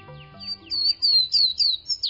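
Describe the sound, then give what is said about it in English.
A warbler-like songbird sings from inside a rhododendron thicket on a May morning in the Great Smoky Mountains, delivering a rapid string of thin, high, sliding notes that grow louder and more emphatic toward the end, with nothing else heard. “in Great Smoky Mountains National Park, a song issues from within a rhododendron thicket, but try as you may, you can't see the singer. It sounds like a warbler.”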